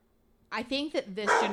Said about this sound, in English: The dog never does this. Yeah, he's so quiet. He's literally, we've been recording for 42 minutes, and he's been so quiet.